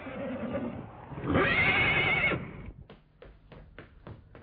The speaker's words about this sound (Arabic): الله مولاي، ده الحصان الطيار.